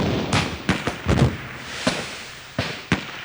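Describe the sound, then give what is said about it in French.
Gunfire and cannon detonations crack through a battle between French and English forces, stretching from a lakeshore to the edge of a forest. Sharp bangs come irregularly, some close together and some spaced apart, over a rough background rumble. “Cris, jurons et détonations se croisent alors depuis les bords du lac jusqu'à la lisière de la forêt.”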